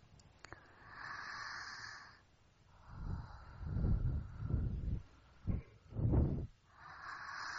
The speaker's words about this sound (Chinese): 呼吸声很大。